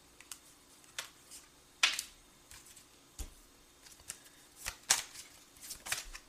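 Playing cards being shuffled and dealt: a few crisp snaps stand out among soft, papery flicks, all faint, with no talking.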